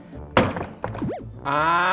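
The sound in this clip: Heavy thuds from smashing a suitcase's zipper lock: a few sharp blunt impacts, followed by a brief whistly scrape and then a louder, sustained rattling burst near the end.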